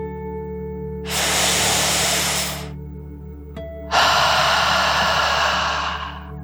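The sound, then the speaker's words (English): Deep breathing in and out during a calming dragon-breath exercise: two long, airy, hissing breaths with a short pause between them, the second louder and longer, over a faint, steady low hum. “And let's take one more deep dragon breath in and out.”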